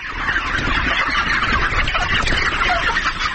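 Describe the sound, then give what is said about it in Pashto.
Chickens cluck on a poultry farm holding around 15,000 white chickens near Tarinkot. Many overlapping clucks and calls form a dense, steady chorus that stays loud from start to finish with no voices. “د ویشت کلن داد محمد د چرګانو فارم دی چې موږ ته یې دروازه پرانیسته او د فارم د لیدو اجازه یې راکړه”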